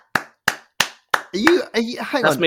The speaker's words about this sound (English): Are you applauding yourself?